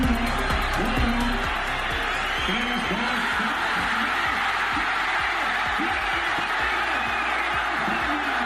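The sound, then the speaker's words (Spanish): A crowd celebrates in Burgos' Plaza Mayor after Spain beat England 2-1 to win Euro 2024. The loud, continuous roar of cheering and shouting voices stays at a steady, dense level throughout. “Ese es el sonido de la alegría desbordada anoche en la Plaza Mayor de Burgos cuando el árbitro pitaba al final y todos celebraron que la selección española ha conseguido su cuarta Eurocopa al vencer 2-1 a Inglaterra.”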